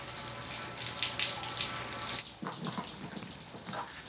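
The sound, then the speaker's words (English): Water sprays from a shower just turned on in a bathroom, a faint, steady hiss that changes abruptly partway through to a lower, splashier rush. “He turns on the shower.”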